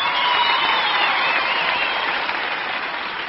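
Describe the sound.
Dense, steady applause from the Grand Ole Opry audience as a television-star guest is welcomed, continuous clapping that eases slightly toward the end.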